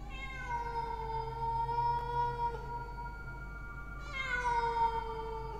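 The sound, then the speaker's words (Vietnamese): A big black cat meows in long, drawn-out, wavering calls with a steady tone, moderately loud over a constant low background hum. “Con mèo đen to lắm, nó lao ra bên ngoài cửa. Đoạn nó đứng đó quay lại nhìn bà bèn, kêu lên mấy tiếng.”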